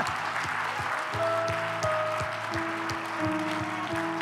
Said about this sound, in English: I told you we would clap.